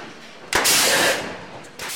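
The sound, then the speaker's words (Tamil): A gun fired against a cow's head before halal slaughter, a sharp loud crack that trails into a brief hiss, with another burst of noise starting near the end. “மெதுவான குரலில் ஓதிய இறைச்சி வெட்டுபவர் அந்த மாட்டின் தலையில் ஒரு துப்பாக்கியை வைத்து சுடுகின்றார்.”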